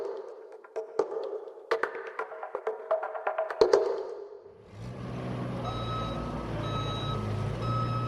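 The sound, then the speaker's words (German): Forklifts carrying pallets shuttle back and forth beside a huge workshop tent at a military camp in Mali. Reversing beeps and clattering knocks come first, then a steady engine rumble takes over, with thin high beeps above it. “Neben einem riesigen Werkstattzelt im Camp Castor fahren Gabelstapler mit Paletten hin und her.”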